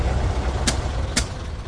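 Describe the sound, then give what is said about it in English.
Lorry engine with a faulty fuel line, a steady low rumble running throughout, broken by two sharp, brief clicks. “No again. The lorry's fuel line is faulty.”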